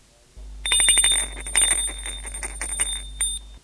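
A doorbell rings as someone calls at a second-floor apartment: a bright electric ring of rapid repeated strikes lasting about three seconds, steady and fairly loud over a low hum.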